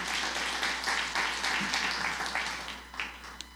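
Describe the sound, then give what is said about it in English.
An audience at a church gathering applauds, many hands clapping in a dense, steady stream that gradually thins toward the end. “Thank you, Liz. Welcome. Let's give her a hand there.”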